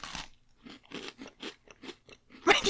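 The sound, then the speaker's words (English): Crunchy chewing of a sweet, sugar-cookie-like treat: a quick series of sharp, crackly bites and crunches in an uneven rhythm, ending in a louder burst. “Let me have a chew on this and we'll see what happens.”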